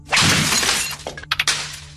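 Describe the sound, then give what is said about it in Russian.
A computer monitor is smashed. A loud shattering crash breaks out, followed by a few sharp clattering hits as pieces fall. “Разбивая монитор”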